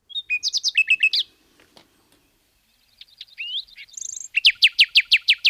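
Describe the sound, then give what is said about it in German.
A nightingale sings alone in bright, high-pitched bursts. It opens with a rapid run of repeated chirps and pauses briefly. Thin whistled and buzzy notes follow, then a loud, evenly spaced series of repeated piercing notes. “Ja, da erkennt man sie. Das ist die Nachtigall.”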